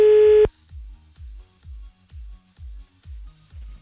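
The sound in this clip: Telephone tones while redialing a call after being cut off: a loud steady tone breaks off into a long, evenly spaced series of low, repeating beeps.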